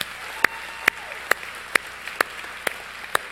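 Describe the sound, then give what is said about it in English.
Applause from a church audience welcoming online viewers: sharp claps in a steady rhythm, about seven, over a wash of softer clapping. “Let's give all those folks a hand right now. Welcome them.”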